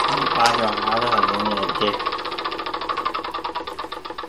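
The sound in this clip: A wheel spinning in a video board game, giving a rapid, even run of clicking ticks that continues to the end, after a brief spoken voice at the start.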